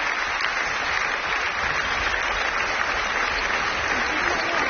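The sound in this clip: Ovation from a standing audience and orchestra at a concert at the Festival de Radio France: dense, steady applause of many hands clapping at an even level for the whole clip.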